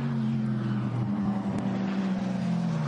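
A rally race car's engine drones as it passes on the track near a right-hand corner, a faint, low, steady harmonic hum with slight wavering in pitch.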